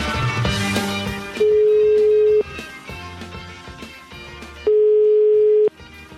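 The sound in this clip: Ringing tone of an outgoing telephone call: two long, steady, mid-pitched tones, each about a second long. Each stands out clearly above continuous background music.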